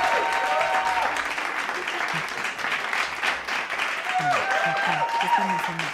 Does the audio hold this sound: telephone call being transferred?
no